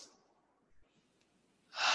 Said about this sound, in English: first of all, I want you to take a breath. One breath.